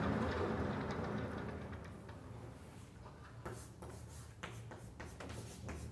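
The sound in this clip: Handwriting as someone writes out a physics formula, the D'Alembert operator. A faint, continuous scratching of the writing tool is broken later by short, separate strokes.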